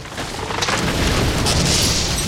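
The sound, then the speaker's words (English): A disruptor gun blast strikes the base of a wide tree trunk and shatters it, heard as a loud, sustained, rumbling roar of dense noise, with no speech. “He aimed carefully and shot a nearby tree dead square at the bottom of its wide trunk.”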